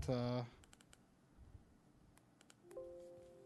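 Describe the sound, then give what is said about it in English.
Light clicks from a small computer keyboard and trackpad come in a few sparse bursts, quiet and crisp, between short stretches of a person talking. “I've got a little trackpad and keyboard that I got to control this computer, because this is a secondary computer”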